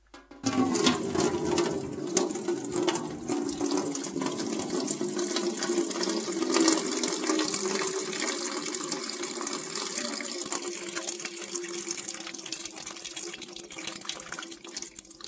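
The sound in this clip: Flowing water of the river Seine in Paris: a steady, faint, gurgling rush that continues unbroken throughout, with no voices.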